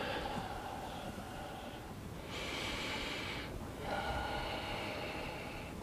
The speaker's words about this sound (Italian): L'ultimo, inspiro, espiro.